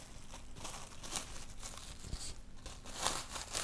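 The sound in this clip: Soft crinkling and tearing as a banana stem is wrapped back up, a string of quiet, irregular rustling crackles with no talk.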